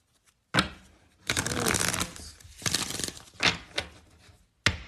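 Tarot cards are shuffled and drawn in crisp, papery bursts of riffling and sliding. A few loud stretches are split by short pauses, and the last one stops abruptly. No one speaks.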